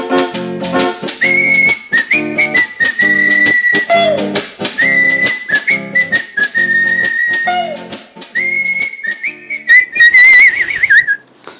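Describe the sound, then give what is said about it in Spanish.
Three Spanish boys whistle a bright, steady melody in clear held and gliding notes over rhythmic instrumental backing, ending in quick fluttering trills. “Somos tres chicos españoles, y silbando nos vamos así.”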